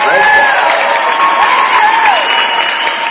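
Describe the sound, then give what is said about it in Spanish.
An applause sound effect: dense, continuous clapping from a crowd, loud and even throughout, with a few thin whistle-like cheering tones gliding over the top. “Aplausos, aplausos.”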